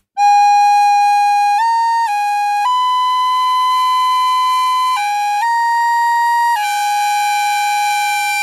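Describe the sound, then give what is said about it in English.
A recorder played in imitation of bagpipes: loud, steady, reedy notes held without a break, stepping between a few pitches in a droning, piping line, with no voices. “That's me imitating the bagpipes.”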